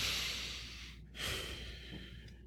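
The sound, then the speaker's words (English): Deep, slow inhales drawn in while concentrating: faint, airy breaths, with one long intake, a short pause, then another long breath. “I'm focusing. You can tell by the deep inhales.”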